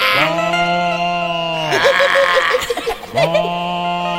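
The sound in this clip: A human voice imitating a cow's call: loud, long, drawn-out lowing tones, the first dropping in pitch at its end, then a short rough, broken stretch before another sustained call.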